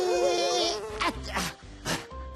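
A flying fly buzzes with a wavering, mid-pitched drone that fades after about a second, followed by a few brief whooshing bursts.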